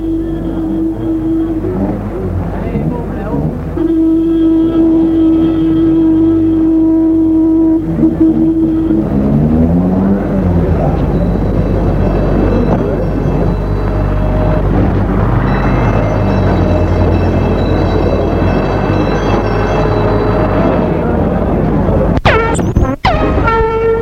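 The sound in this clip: An accident sound effect: a car passes under loud engine rumble while a blaring truck horn sounds long sustained notes, then bends downward in pitch. Sharp, brief impacts come near the end.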